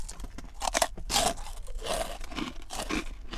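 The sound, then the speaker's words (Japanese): Crunching and chewing of a dark, deeply cracked rice cracker (okaki), with several crisp, fairly loud bites and grinding chews spaced irregularly, and no talk. “これ普通のおかきよりも結構噛み応えというか”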